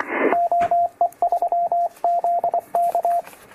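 Morse code from an amateur radio CW transmission: a steady mid-pitched tone keyed in quick short and long elements, grouped into several bursts after a brief burst of noise at the start.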